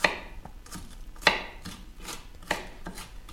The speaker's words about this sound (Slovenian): Tako, zato najprej nadrobno nasekljam čebulo.